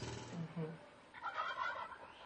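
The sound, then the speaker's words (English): Wild turkeys gobble in quick, rattling bursts, a couple of lower calls followed by a higher, busier stretch, all faint and without talk. “wild turkeys”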